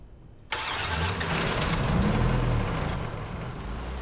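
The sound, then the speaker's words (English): A vehicle engine starts abruptly after a moment of near silence, then settles into a steady, rumbling idle that holds to the end. “adjusts his side mirror and starts the vehicle.”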